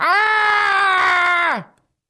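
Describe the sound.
A person screams: one loud, sustained, harsh vocal cry held at a steady pitch for about a second and a half, then dropping sharply in pitch as it cuts off into silence.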